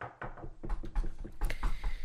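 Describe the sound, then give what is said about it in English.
Knocking: a loose series of many dull, uneven thuds with some rattle, at a moderate level and without a steady rhythm. “Knocking.”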